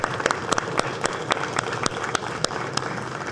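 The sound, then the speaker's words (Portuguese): Applause welcoming guests in the Brazilian Senate: steady, dense clapping with sharper individual claps standing out throughout, at moderate loudness. “Na minha cidade, a gente bate palma para convidados.”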